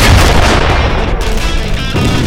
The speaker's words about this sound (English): The mortarmen, Hoffman and Jones, began their work, aiming dead center at the line of remaining Russian tanks.